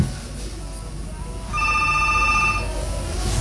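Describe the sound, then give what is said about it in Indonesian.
A telephone ringing with an incoming call, heard as a single bright electronic ring tone of about a second over a low, steady background hum. “kita coba terima dulu penelponnya”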